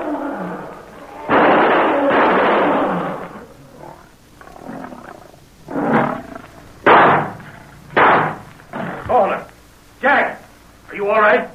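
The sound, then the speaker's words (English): Heavy rifle shots ring out amid wild animal roars: loud growling bursts give way to several sharp, booming blasts spaced about a second apart. “Those shots, they were from a heavy rifle. At least the first two were.”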